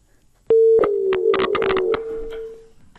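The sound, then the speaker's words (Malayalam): A steady, mid-pitched telephone tone on a radio call-in line after a caller's connection was cut off. It sounds continuously for about two seconds with crackly bursts over it. “ആ call കട്ടായി പോയിരിക്കുകയാണ്.”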